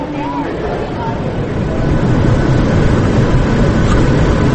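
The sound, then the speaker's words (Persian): Airplane taking off and passing at an airport terminal: a broad, rumbling roar fills the whole clip and swells noticeably louder about halfway through, then stays heavy and steady. “بلند شد هواپیما، رد شد.”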